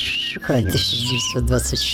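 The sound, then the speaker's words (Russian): Whistling plays beneath people talking. A few thin, pure whistled notes shift between higher and lower pitches. “Но сейчас мне кажется, что свист очень кинематографичен. Согласен. Киношный свист какой-то у нас есть.”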